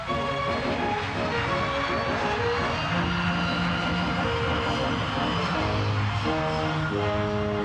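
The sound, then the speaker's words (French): Steady, loud roar of a Boeing 707 Jet Clipper jet airliner, the first American commercial jet for economical transatlantic service, with whining tonal lines held over a dense continuous rumble throughout. “This is it, the first American commercial jet capable of economical transatlantic service, the Boeing 707 Jet Clipper.”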